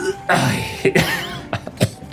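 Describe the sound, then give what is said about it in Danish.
Several short, harsh coughs come in uneven bursts from someone smoking a cigarette. “Man må ikke hoste, når man ryger.”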